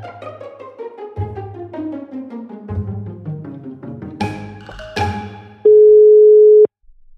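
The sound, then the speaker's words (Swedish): A steady telephone tone sounds while a call is placed, holding at one clear pitch for about a second after a stretch of descending musical notes. “Nu tänkte jag ringa upp Minnal.”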